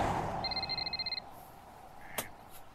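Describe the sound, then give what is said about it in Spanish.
A mobile phone ringing: a short, high electronic warbling ringtone under a second long over a steady low rumble, followed by a brief sharp tap. “¡Ay! Apague ese celular”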